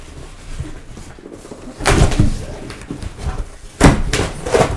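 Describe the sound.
Tape is peeled and a package holding a computer is torn open, with two loud bursts of ripping and rustling rising out of a quieter bed of handling noise.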